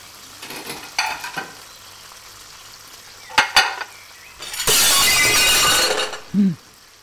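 Carried plates fall and shatter: a couple of sharp clattering hits, then a long, loud burst of crashing and breaking crockery lasting over a second, ending with a short, low thud.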